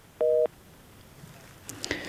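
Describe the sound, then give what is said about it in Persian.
Telephone busy tone after a listener's call-in to a radio show drops: a single short, steady dual-pitched beep, followed by faint hiss and a few small clicks. “متاسفانه شنونده دیگه ما هم تماسشان قطع شد.”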